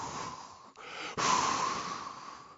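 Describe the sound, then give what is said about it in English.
A person imitates breathing out onto others with airy exhales; a softer breath gives way to a louder, forceful rush of air that fades gradually. “And he breathed on them.”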